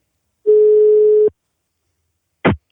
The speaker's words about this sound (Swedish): Så jag testar helt enkelt att slå honom en signal här så ser vi vad han